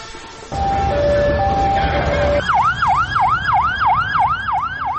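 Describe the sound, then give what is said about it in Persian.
An ambulance siren at a crowd gathered after a killing, loud and repeatedly wailing up and down in a fast, even rhythm, following a few seconds of steady horn-like tones. “این صدای امبولانس و تجمع مردم به خاطر کشته شدن یکی از رهبران اماس بود”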